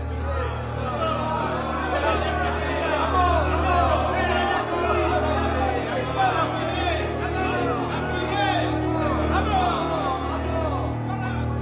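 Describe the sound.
A crowd shouts against Pilate, a dense, continuous babble of many raised voices that holds steady throughout without clear pauses.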